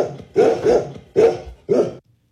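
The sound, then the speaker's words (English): Golden retrievers bark in four loud, mid-pitched barks: a quick pair, then two more spaced apart, with no talk. “I cannot believe you spent our entire life savings on dogs. They're golden retrievers, Karen.”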